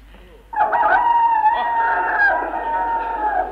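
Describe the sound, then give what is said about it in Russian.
A rooster crows one long, sustained cock-a-doodle-doo that starts abruptly and holds loud and bright to the end, marking the first cockcrow in a folk tale set at a haunted mill. “Первый петух.”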